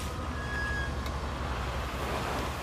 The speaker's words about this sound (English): The car's headlights approach slowly up the street.